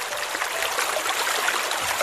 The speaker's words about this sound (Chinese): 这是森林的声音